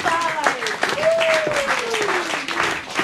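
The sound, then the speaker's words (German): Roaring applause from an audience welcoming guests on stage: dense, continuous clapping that stays loud throughout, with a raised voice calling out over the noise. “Und deshalb begrüßen Sie heute mit uns mit einem tobenden Applaus.”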